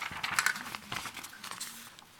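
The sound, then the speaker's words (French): Sheets of paper rustle and flap as someone shuffles through them. The sound comes in soft, irregular, papery bursts, quiet and without talk. “Je vais essayer de retrouver la bonne feuille.”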